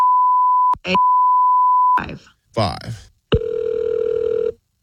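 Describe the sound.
Steady telephone dial tone while placing a call: a loud, even hum with a brief break before it resumes for about a second, then people talk, followed by a longer buzzing tone that cuts off abruptly.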